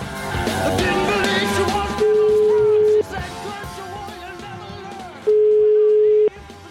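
A telephone ringback tone sounds while calling a bar back, two steady mid-pitched beeps of about a second each with a pause between, following an opening stretch of busier sound.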